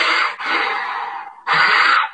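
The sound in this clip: A voice imitates a toddler breathing hard while straining on the toilet, making two loud, harsh, noisy breaths. The first lasts over a second and the second is shorter.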